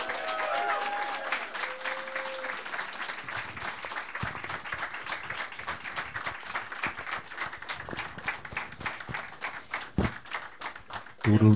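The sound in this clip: Audience applause welcoming three guests, a dense, steady wash of clapping that builds after the first few seconds and carries on loudly to the end.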